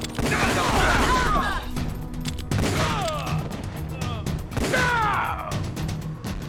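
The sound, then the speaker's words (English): Gunfire from a SOCOM pistol in a video game: sharp, loud bursts of shots come in a few separate clusters, mixed with game voices and clattering impacts. “Ooh! Let's equip our SOCOM.”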